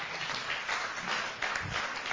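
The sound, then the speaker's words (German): Clapping from a gathered audience, steady many-handed applause at moderate level that runs throughout without a break. “Applaus, Werner.”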